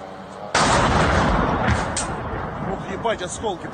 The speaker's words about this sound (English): here we have another person in Russia that is recording the Storm Shadow missiles hitting the ground or the targets.